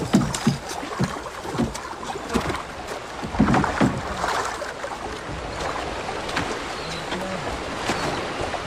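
Water splashes and churns around a ship setting off on the water, with irregular slaps and splashes over a steady rushing wash.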